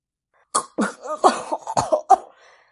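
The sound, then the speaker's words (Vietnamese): Harsh, choking coughs from a man bent over a bed after something went into his windpipe: a rapid series of raspy, strained bursts, some voiced and wheezy, trailing off into a faint breath. “Liền thấy Lộ Thương liều mạng ghé vào bên giường ho sù sụ, vẻ mặt thê thảm.”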